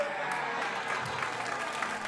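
Audience applause for a panel at a live show: steady, fairly faint clapping from a crowd, sustained evenly for the whole stretch.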